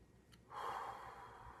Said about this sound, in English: Breathe in with me. Every time that we breathe in.